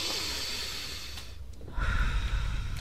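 A deep breath drawn in through the nose during a guided breathing exercise: a steady airy hiss that thins briefly, then swells louder and rougher toward the end.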